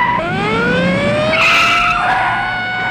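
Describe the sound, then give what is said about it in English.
Tires squeal as a police squad car pulls out into traffic, cuts in front of another car and stops: a loud, continuous skidding screech lasting about three seconds, with a rising tonal whine over steady road noise. “The squad car pulls out into traffic and cuts in front of Bond, who stops.”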